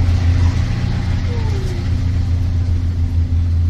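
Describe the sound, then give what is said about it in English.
A shuttle bus driving through a canyon on the last run of the day, headed back to a visitor center: a steady, fairly loud low engine rumble and road drone that stays even throughout. “We pack up and run down, barely making the last bus of the day. This bus is headed back to the visitor center.”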